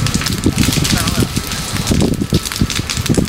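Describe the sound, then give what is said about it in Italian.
A wildfire burning in Galicia, Spain, gives off a loud, continuous roar packed with irregular crackles and sharp pops that rise and fall in bursts, with a rushing, wind-like noise throughout. “Quello che sentite è il suono del fuoco che brucia in Galizia.”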